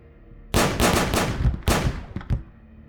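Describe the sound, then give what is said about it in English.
Several gunshots fire at close range in a rapid, uneven series of loud, sharp cracks with short noisy tails, standing alone with no voices. “Several shots at close range, dropping Costin and the other guardsmen.”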